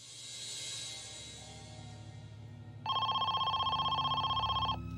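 A telephone rings in one long burst of rapid, buzzy trilling, loud and steady for about two seconds, following a stretch of low rumbling hum.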